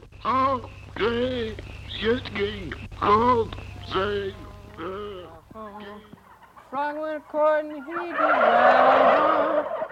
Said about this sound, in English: sitting in a pen with 400 turkeys, which are all gobbling and stuff like that, while he plays this one folk song.